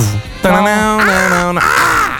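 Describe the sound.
A human voice imitates a crow's call, giving a few loud, drawn-out, groaning caws with strong harmonics that run almost without a break.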